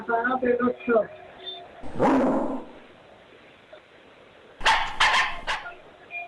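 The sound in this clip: Puppies bark in a few sharp, high yips in two short bursts, the second a quick cluster of three or four, with a person talking briefly before the first bark.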